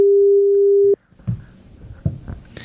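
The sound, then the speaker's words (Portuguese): Telephone dial tone while a call is placed, a single steady, loud mid-pitched tone holding for about a second before cutting off abruptly, then faint scattered clicks and rustles. “vamos te ligar, hein”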